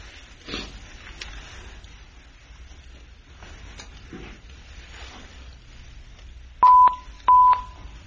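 Two short, steady telephone keypad tones sound loud and clear as the line to a remote court hearing is reconnected, after several seconds of faint low background noise.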